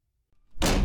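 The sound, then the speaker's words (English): A door slams once, a sudden loud thud that bursts out of near silence and rings on briefly. “That's the sound of a door slamming in your face.”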